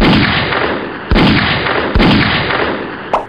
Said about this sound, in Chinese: 这里果然有重兵把守，不仅有坦克，还有风车在不停发射导弹。我得先将它发射导弹的叶片摧毁了。